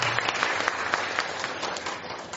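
An audience applauds at a gathering on handling anger. The clapping is faint, steady and dense and continues throughout.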